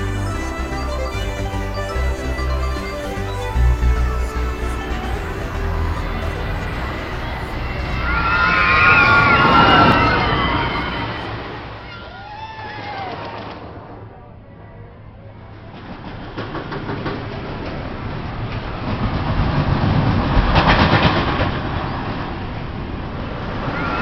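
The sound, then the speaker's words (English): A roller coaster rumbles along its rails while a crowd cheers and screams. The roar swells, fades and swells again over a long stretch. “That was the craziest roller coaster ride I have ever been on.”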